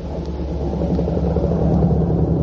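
Moped engine ridden along: a continuous low, rumbling drone that holds steady and swells slightly toward the end.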